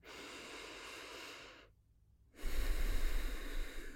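Breathing during a guided body warm-up practice: a long, airy inhale, a short silent pause, then a louder, rushing exhale with a breathy low rumble.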